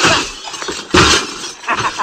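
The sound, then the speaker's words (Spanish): Glass window panes being smashed, a few harsh crashing bursts of breaking glass with a lingering bright rattle of shards between them. “como quedan cuatro cristales, esto me lo voy a romper yo”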